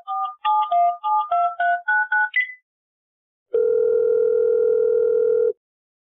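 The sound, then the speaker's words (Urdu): A telephone line connecting a caller: a quick run of short pitched keypad beeps, a brief silence, then one steady, unbroken tone held for about two seconds before it stops. “G call ملائیے collar number 66 سے.”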